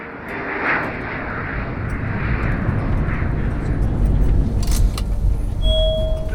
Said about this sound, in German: wir sind in Berlin gelandet.